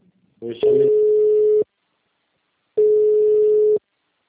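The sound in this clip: A phone busy tone follows a dropped call: two long, steady, mid-pitched beeps of about a second each, separated by about a second of silence and preceded by a brief clipped sound.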